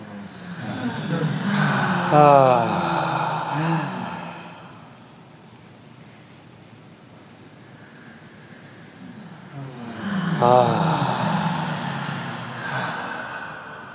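Deep breathing in and out during a guided relaxation exercise: two long, slow breaths, each swelling into a voiced, sighing exhale, with a quiet pause between them.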